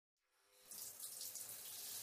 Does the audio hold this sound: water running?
yes